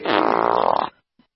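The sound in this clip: A synthetic fart sound effect plays from a Tesla car: one loud, buzzy, drawn-out blast lasting just under a second, then a faint short blip after a brief pause.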